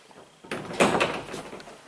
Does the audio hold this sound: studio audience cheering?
no